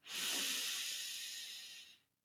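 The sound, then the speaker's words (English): A deep breath comes as one long, airy hiss of about two seconds. It rises quickly, holds steady, then fades away. “let's just take a deep breath”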